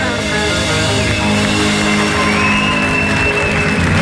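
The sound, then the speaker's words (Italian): Applause from an audience, a dense, steady clapping that stays loud and continuous through the whole stretch without a break or fade. “giustamente su questi applausi.”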